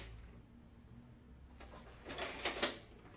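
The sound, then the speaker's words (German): A cash register drawer is pushed shut: after near-silence, a faint sliding rumble leads into a few quick, dry clacks toward the end, all quiet. “Muss man die Kasse zumachen.”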